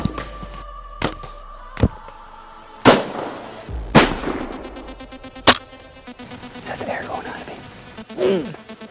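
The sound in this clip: Sharp gunshot cracks during a buck deer hunt, several loud impulsive bangs at irregular intervals with quieter clicks and rustling between them.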